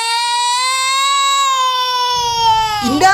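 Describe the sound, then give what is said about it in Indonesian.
A child crying in one long, sustained, high-pitched wail that holds a nearly steady pitch for about two seconds, then breaks into a rougher, shakier sob at the end. “Dan tiba-tiba, ada suara anak menangis.”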